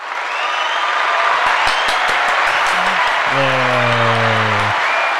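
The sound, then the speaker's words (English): Crowd cheering and clapping plays as a celebratory party sound effect. It is a steady, full wash of noise, with a short, low, buzzy horn-like tone near the end. “Do we got a party sound effect? Or like a yay?”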